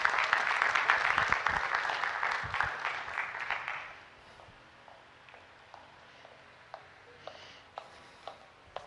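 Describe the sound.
Church audience applauding to welcome a speaker: a dense burst of clapping for about four seconds that then thins out to a few scattered claps and soft taps.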